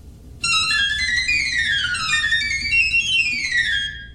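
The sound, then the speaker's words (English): Piccolo pipes of a hand-turned organ, three pipes per note at the front, play a shrill, whistling high melody with quick running and descending figures that continue steadily before fading at the end. “Here are the piccolos.”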